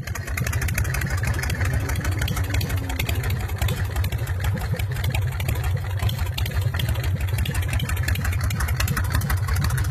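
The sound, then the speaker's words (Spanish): A Harley motorcycle engine idling, giving a loud, continuous low rumble with a rapid pulsing throb that stays even throughout, with no voices over it. “Ahí encendió la bestia el amigo, ahí está el Harley, escuchá el motor Harley, a ver.”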